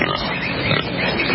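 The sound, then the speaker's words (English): A pig oinking, with a few rough, snorting grunts that run together in one fairly loud, noisy burst lasting the whole clip, and no talk. “You want to trade a pig for the bar? If you can part with the pig.”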